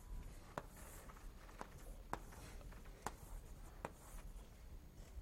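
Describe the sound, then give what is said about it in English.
A graph being drawn on a board, heard as a few sharp, faint strokes and taps spaced across a few seconds over quiet room noise. “If we have the following graph on 6 vertices, here I'm going to draw one.”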